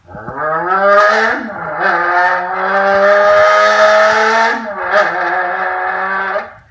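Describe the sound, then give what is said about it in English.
A Lamborghini Aventador with scissor doors starts and warms up: the engine rises quickly in pitch early on, settles into a steady droning idle, gives another short rev near the end, then drops away. “We'll close the scissor door. Hit the starter. Once she's warmed up, let's go ahead and pull out of the parking lot.”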